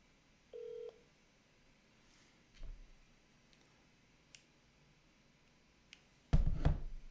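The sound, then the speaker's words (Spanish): A telephone keypad tone sounds as a call is placed: one short, steady beep in near-quiet, followed by a few faint clicks and a louder burst of noise at the end. “Voy a hacer un intento más de llamar al dirigente Jerry Batista para conversar con él.”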